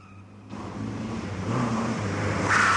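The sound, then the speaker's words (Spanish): A pizzeria delivery car drives along a slippery street, its engine a low, steady rumble that swells louder toward the end, with a brighter hiss coming in at the close. “El auto de la pizzería circula por la calle resbaladiza.”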